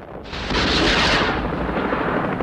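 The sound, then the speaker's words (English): Missiles fired from helicopters explode on an offshore oil rig platform: a heavy blast swells up within the first moments, then settles into a sustained, loud roaring rumble that fades only slightly, with no voices heard. “Two marine helicopters fire missiles at the platform. Explosions blossom on the rig's surface.”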